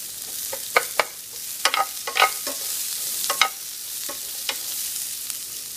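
A utensil stirs onions frying in a pan. Many irregular scraping clacks sound over a soft, continuous sizzle, and no voices are heard.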